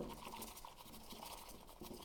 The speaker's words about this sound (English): the chawan into my hand and then I put in the whisk, and then I can show you like this. So I just do this zigzag form,